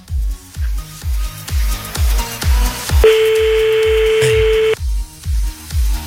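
Telephone call signal tones play on a call to an unassigned number: a regular series of low pulsing beeps, broken by a steady, brighter sustained tone lasting nearly two seconds before the pulses resume.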